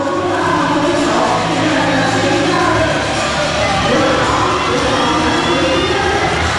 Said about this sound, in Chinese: 现场是此起彼伏的为中国选手加油的声音